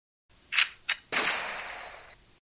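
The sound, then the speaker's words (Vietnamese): A gunshot sound effect in a gangland crime drama: two short, sharp cracks, then a longer, noisy blast that holds for about a second before cutting off. No voices are heard. “Phát súng nổ ra, A Thụy ngã gục xuống dưới nền nhà.”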